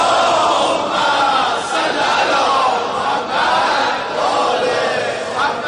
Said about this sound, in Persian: خسته که نشدی، هرکی خسته نیست یه صلوات بلند بفرست.